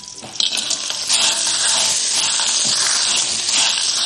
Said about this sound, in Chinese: 油热了倒入葱姜片爆香，然后倒入蛤蜊，